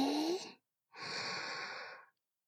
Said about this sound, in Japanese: 吐いて、吸って、